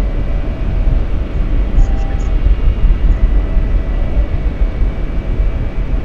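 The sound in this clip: An airplane engine runs steadily after landing, just before it is shut down: a constant low rumbling drone with faint steady tones above it and no voices.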